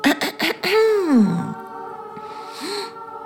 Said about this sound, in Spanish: Así que, sin muchas ganas de interrumpir, Core se raspó la garganta.